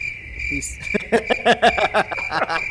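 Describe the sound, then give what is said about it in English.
Crickets chirping, used as a sound effect after a joke falls flat: a steady high-pitched trill pulses quickly and evenly throughout, with a voice briefly breaking in over it. “I appreciate the use of the crickets.”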